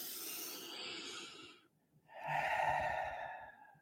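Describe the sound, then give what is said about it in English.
A deep breath: one long, airy inhale, a short pause, then a long, audible exhale, quiet and unhurried. “And then just that deep breath.”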